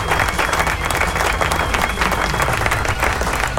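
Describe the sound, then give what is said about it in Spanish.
A crowd applauds, with dense, steady clapping that holds at an even level throughout and never pauses. “Así que aplauso.”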